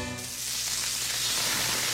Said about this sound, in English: Fresh, juicy, award-winning smash burgers are sizzling right now